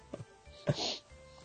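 A single cough during a phone call on an iPhone, a short, quiet, breathy burst, preceded by a few faint soft vocal sounds.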